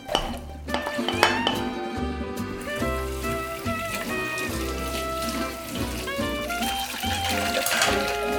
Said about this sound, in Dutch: Ik zal ook een bakplaat uithalen om ze op te zetten.